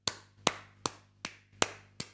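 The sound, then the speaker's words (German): Six sharp hand claps ring out at a slow, regular pace, each a crisp, bright smack that decays quickly before the next, separated by quiet gaps. “Da klatschen wir. Ja. Also ich klatsche da.”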